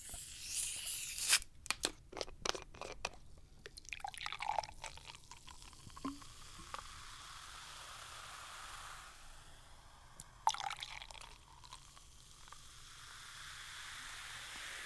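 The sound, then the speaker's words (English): A sugary British orange soft drink is opened with a crackly tearing burst and then poured, giving a soft, fizzing hiss with faint trickles and a second brief crackling surge, all quiet and without speech. “It's basically just sugar and carbohydrates. it's British and it's full of sugar and rots your teeth. All right, let's crack it open.”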